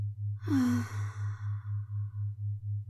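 A single slow exhale during a guided breathing exercise, starting with a brief voiced sigh and trailing off into a soft breathy hiss, over a steady pulsing low hum.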